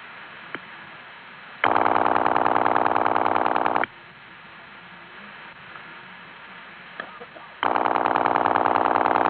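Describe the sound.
Telephone line sounds as a caller hangs up and redials on a second line: a faint click, then a loud, steady buzzing tone for about two seconds, quiet hiss with another click, and the loud tone returning.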